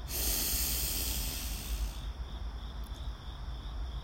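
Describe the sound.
Slow, deep breathing in and out during a guided breathing exercise, a long airy hiss of breath that shifts partway through, with a faint high tone in the background and no talking.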